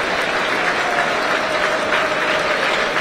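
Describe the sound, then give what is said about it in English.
A football stadium crowd at a Wrexham v Barrow match applauds while an injured player is treated. Loud, sustained clapping from thousands of spectators blends into a dense, unbroken roar that holds steady throughout. “the whole stadium applauding now.”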